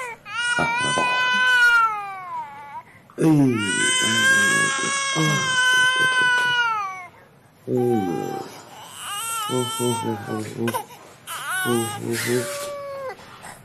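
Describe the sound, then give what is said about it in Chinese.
Baby crying in long, loud, high-pitched wails: several sustained bouts broken by brief catches of breath and choppy sobbing toward the end. “我一抱上他就不哭了。”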